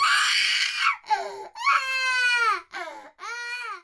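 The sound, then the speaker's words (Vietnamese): An infant crying at home in five loud, wailing bursts with short gasping breaks between them, the cries rising and falling in pitch, with no talking. “Con khóc kìa kìa, ra dỗ đi”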